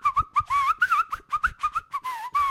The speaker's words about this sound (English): So I was too young to know why I had to whistle.